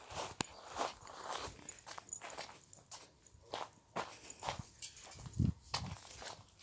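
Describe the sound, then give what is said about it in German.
Footsteps of a person running away: many faint, uneven footfalls thud and scuff in quick succession, with no talking. “der rennt von mir weg”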